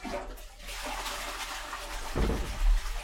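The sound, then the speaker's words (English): A toilet flushes with a soft, rushing hiss of water that swells louder toward the end. “Just ignore us, the flushing of the toilet.”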